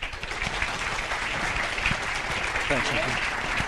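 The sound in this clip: Audience applause welcoming a professor back for a lecture: a steady, even spatter of clapping with a brief voice rising near the end.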